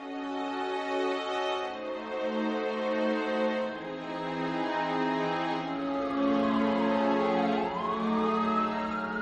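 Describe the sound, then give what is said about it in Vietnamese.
Ambulance siren wailing through a village, a loud, steady harmonic tone that holds for several seconds, then glides down and back up near the end. “Những tiếng còi báo từ chiếc xe cứu thương làm kinh động cả góc làng Phúc Lượng.”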